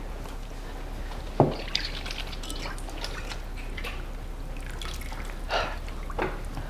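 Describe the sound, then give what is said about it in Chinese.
Hands are washed in a basin of water with soap nearby: a few faint drips and small splashes break an otherwise quiet, low background hiss. “你去洗洗手，然后盆里有水，架子上有肥皂”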